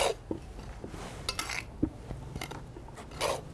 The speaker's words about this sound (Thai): ก็คือผสมให้ทั้งหมดเข้ากันก่อน